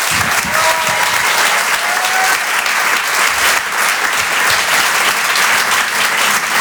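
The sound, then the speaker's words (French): Audience applauding a comedian coming on stage at a comedy show in a theatre: dense, steady, loud clapping that continues without a break throughout. “Je vous demande de l'encourager. Faites du bruit pour Rodrigue.”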